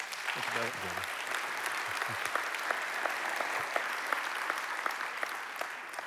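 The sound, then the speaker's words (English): Applause from a church audience welcoming a speaker to the pulpit, a dense, steady clapping that holds at an even level for about six seconds. “would you help me give a warm welcome to Jared Wilson?”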